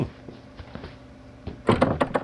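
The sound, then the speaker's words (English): A box being closed: a few faint knocks and taps, then a short burst of louder clattering thumps at the end. “Okay, I'm closing the box.”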